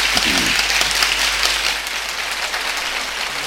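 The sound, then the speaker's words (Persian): Applause from an audience at a gathering with songs, a dense and fairly loud wash of many hands clapping steadily through the whole stretch. “خب کف مرتب بزن”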